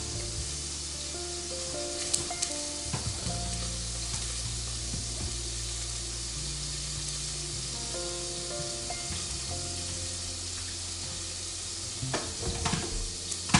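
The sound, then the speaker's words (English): Onions sautéing in butter in a pan give a steady, dense sizzle and crackle throughout, with a few brief stirring scrapes rising above it. “so I'm sauteing onions in there”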